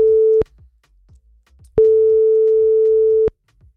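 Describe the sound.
Ringback tone of an unanswered telephone call: a steady, mid-pitched electronic tone cut short at the start, then after a long pause a second, fuller tone of about one and a half seconds, with only faint low background sound between.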